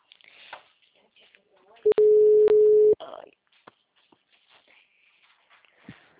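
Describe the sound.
A telephone ringback tone during a call: one loud, steady mid-pitched tone lasting about a second, with quieter voices talking before and after it.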